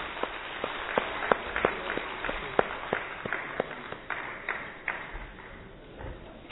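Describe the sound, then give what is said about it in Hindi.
An audience claps for a children's skit, a run of sharp, separate hand claps at an uneven rhythm that thin out and fade near the end. “इन सब के लिए जोर से फिर से तालियां बजाइए।”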